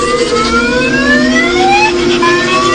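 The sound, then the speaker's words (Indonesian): A car alarm blares very loudly outside a house, producing a continuous electronic wail of repeated upward-sliding tones that restart after each climb, with no pause throughout. “suara alarm mobil berbunyi sangat kencang, membuatku terpaksa untuk keluar rumah dan mengejar mobil.”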